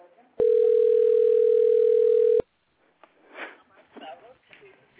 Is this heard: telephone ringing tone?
yes